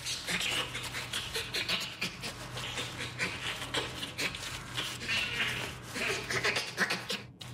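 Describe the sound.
Bonobo panting: dense, rhythmic, breathy gasps on both in- and out-breaths, many in quick succession, rough and noisy over a steady low hum, continuing throughout.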